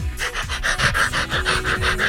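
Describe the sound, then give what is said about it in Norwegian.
An excited pet dog pants at home while it waits for treats. The panting is rapid and rhythmic, with quick breathy pulses repeating steadily and fairly loud throughout, and no talk. “Da det en som gira. Da det en som vet at det godis i lufta. Bikkja mi Max.”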